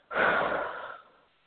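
A long breath out during a guided breathing exercise: a single soft, airy exhale that starts abruptly, holds for most of a second, then trails off into quiet.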